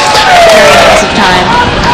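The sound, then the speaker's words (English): A crowd cheers at the finish line of a push-bar buggy race, a loud, steady roar of many voices that holds at full strength throughout. “Here all the CIA people cheering, all the crowd clapping.”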